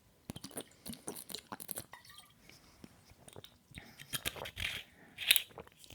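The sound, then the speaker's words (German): Taking a sip of a drink: faint wet mouth clicks and swallowing gulps in an irregular series, quiet overall, with a brief louder hiss near the end. “Ich muss aber erstmal zwischendurch einen Schluck trinken.”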